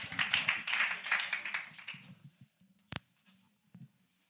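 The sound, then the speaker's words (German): Applause at a church worship evening: brisk clapping for about two seconds that quickly dies away, followed by a few isolated taps and claps in near silence. “Ja, Applaus.”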